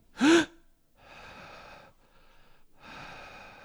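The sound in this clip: A sharp, loud inhale opens a breathing exercise, then a few longer, softer breaths in and out follow with short pauses between them. No one talks.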